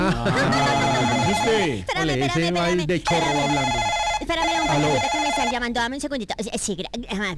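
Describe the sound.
A telephone rings with a loud, steady ringtone that continues for the whole clip, mixed with other tonal sounds.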